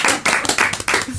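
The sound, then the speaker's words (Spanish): Short burst of applause for a guest, a few people clapping in quick, uneven rhythmic bursts over about a second. “¡Un aplauso para el doctor Alón!”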